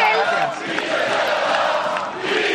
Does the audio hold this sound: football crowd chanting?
yes